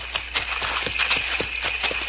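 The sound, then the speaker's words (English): Horses' hooves clip-clop in a steady stream of many light, quick knocks, as the horses are led off out of sight. “Let's get these horses out of sight.”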